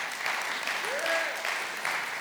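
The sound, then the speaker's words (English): Audience applause at a morning gathering as a couple is invited up to the front, a steady, sustained wash of clapping, with a brief rising-then-falling tone or whoop riding over it midway. “You're clapping for them even before you even know them.”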